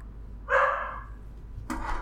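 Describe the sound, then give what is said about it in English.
A dog barks twice: a loud, drawn-out bark, a pause, then a shorter sharp bark. No other sounds are heard. “Dogs. Doggos, as the kids say these days.”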